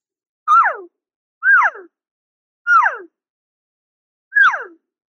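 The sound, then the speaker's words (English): A human voice imitates a cow call with four separate raspy moos. Each one is a single tone that drops off in pitch, and there are short silences between them. “So for a cow sound, all I want to do is just, I want to sound a little bit more raspier than a calf sound, but also it's just a single pitch and it drops off.”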